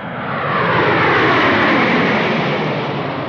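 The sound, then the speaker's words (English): An OAS airliner, Flight 144 bound for Argentina, takes off from runway 2. Its engines make a loud, broad, steady roar that swells over the first second and then holds strong throughout. “Attention, please. OAS Flight 144, now leaving on runway 2 for Argentina.”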